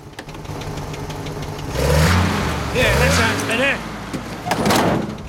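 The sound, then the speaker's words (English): Engine of a 1950s-style car running after an adjustment under the bonnet, a mid-pitched motor that rises in a few revving surges, with people talking over it. “With the 50-style car stopped, Bert opens the bonnet and makes an adjustment to the engine.”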